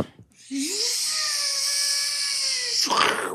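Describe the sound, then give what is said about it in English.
A voice imitates a drill boring into a cave, holding a steady, sustained high-pitched whine for a couple of seconds before cutting into a short, noisy crash as the drill breaks. “Like the drill was good. The crashing sound was not great. That was the drill breaking.”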